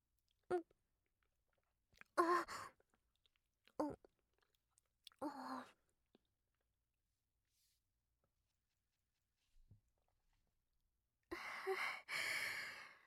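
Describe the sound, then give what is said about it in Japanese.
Chewing and eating sounds as someone finishes the remaining food of a large meal: a few short, soft bursts spaced apart, then a longer, denser stretch of mouth noise at the end, with no talk. “残りのお料理もいただきます”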